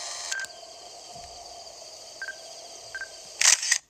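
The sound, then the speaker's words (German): Camera shutter taking a photo in the Zelda Breath of the Wild video game: a few short, bright electronic beeps at spaced intervals over a faint steady hum, then a loud, crisp shutter burst near the end. “Ich wollte nur schnell ein Foto machen.”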